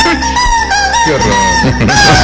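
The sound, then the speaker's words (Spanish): A rooster crowing: loud, drawn-out harmonic calls with a wavering, bending pitch, repeated in a few phrases, alone with no talk. “¿Está cantando el gallo?”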